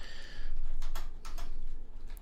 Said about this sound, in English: Watching you try to type is still actually really funny.